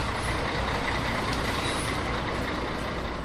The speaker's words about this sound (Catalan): sembla que ve amb aquest camió que s'acosta